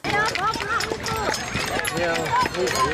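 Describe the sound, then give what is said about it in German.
People in England stomping on the ground to coax earthworms to the surface, worm charming: dense, continuous thudding footfalls under loud crowd chatter, with voices talking throughout. “Denn das, was ihr da hört, sind Menschen in England beim sogenannten Worm Charming. Die versuchen, Regenwürmer aus dem Boden rauszulocken.”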